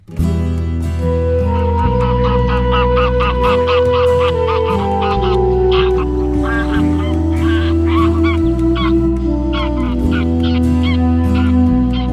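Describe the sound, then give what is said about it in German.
Loud, continuous honking of greylag geese, the wild ancestors of domestic geese, with many overlapping nasal calls layered densely throughout and no pause. “Graugänse sind die wilden Vorfahren unserer Hausgänse. Beide haben fast die gleiche Stimme.”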